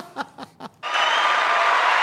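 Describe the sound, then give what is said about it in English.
Applause for a big betting win, opening with three short chuckles before a sustained burst of many hands clapping takes over and holds at a steady level. “Yeah. That's well worth it. That's well worth the applause there.”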